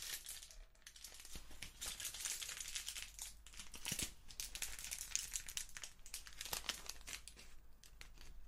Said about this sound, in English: Again, I'm just going to fold up the hair into the foil.